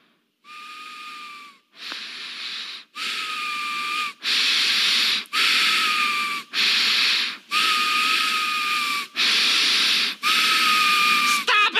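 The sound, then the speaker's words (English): Heavy breathing through the nose by a cartoon character: a long, steady run of loud, rhythmic breaths, each carrying a thin whistling tone over a snorting hiss, with no talk. “Homer they're praying, and Homer starts to breathe real heavily through his nose”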